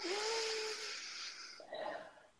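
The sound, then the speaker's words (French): A faint, soft breath drawn in during a guided relaxation exercise, an airy hiss with a slight wheezy whistle, followed by a short second airy swell, heard alone. “J'élimine la croyance ce que je dois faire, ce que veut maman. Une respiration.”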